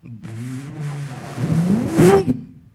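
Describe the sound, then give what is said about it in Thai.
A Japan-spec Nissan Skyline GT-R engine revs, its rough, low growl building in loudness and climbing in pitch to a peak near the end before cutting off abruptly. “Nissan Skyline GTR 30ปี10 Japan สเปค”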